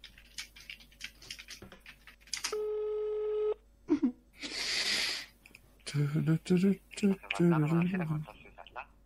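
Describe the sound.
Telephone ringing as a number is dialed, heard as a steady buzzing tone lasting about a second amid people talking, then a short hiss of noise before more voices.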